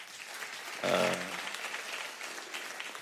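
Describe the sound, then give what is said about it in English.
Faint audience applause at a church service, a steady patter of clapping throughout with a brief louder swell early on. “I think it deserves a lot of applause”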